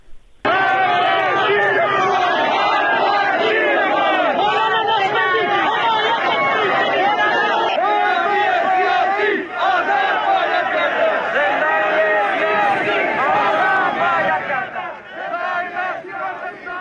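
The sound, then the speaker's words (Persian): Protest crowd chanting in Zahedan, Iran, a dense roar of massed shouting voices that runs loud and continuous for the whole stretch, dipping only briefly midway and easing slightly near the end. “برگردیم دوباره به زاهدان، یک بار صدای اعتراضهای امروز رو از زاهدان بشنویم”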